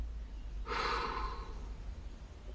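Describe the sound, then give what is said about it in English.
A held breath is released in one long exhale during a guided breathing exercise. The breathy rush starts abruptly, lasts about a second and then fades, alone over a low background hum. “Okay, release. Release your breath completely.”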